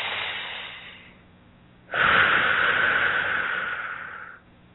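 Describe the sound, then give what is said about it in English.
A slow deep breath during a guided meditation: two long, airy breath sounds, the first softer and shorter, the second louder and drawn out before it fades. “Nice deep breath with that, please. Nice deep breath.”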